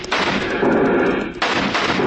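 Dense gunfire from a shootout in a western radio drama, many shots running together into a loud, unbroken barrage with no voices.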